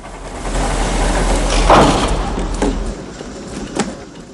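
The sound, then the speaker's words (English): Heavy metal double doors are closed and locked with a broad, rolling rumble, then a few sharper knocks and clanks. A low steady hum runs beneath for the first part, and no voices are heard. “The van drives through, and the man promptly closes the doors again and locks them.”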